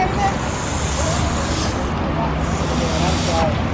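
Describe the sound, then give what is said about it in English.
An animal hisses in a sustained, breathy rasp that carries loudly through the whole stretch, with faint murmuring voices beneath. “Look at him, he hissing.”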